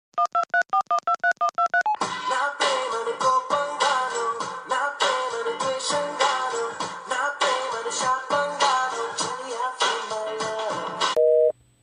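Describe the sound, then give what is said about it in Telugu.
Electronic telephone tones as a call is placed: a quick run of short stepped beeps, then several seconds of loud rhythmic music and a brief steady tone at the end. “వాడికి phone కలిపి నేను మాట్లాడతా.”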